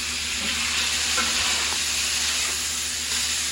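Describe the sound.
Food frying in a pan as it is stirred and mixed: a loud, steady sizzle and hiss throughout, broken by a few soft knocks from the stirring.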